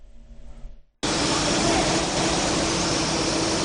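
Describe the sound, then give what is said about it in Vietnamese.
A steady, loud whooshing hiss of machinery as a robot arm assembles the windshield of a light truck in an automated factory in China. It starts abruptly after a second of quiet and then runs evenly. “Cánh tay robot này đang thực hiện nhiệm vụ là lắp ráp phần kính trước của một chiếc xe ô tô tải hạng nhẹ như thế này.”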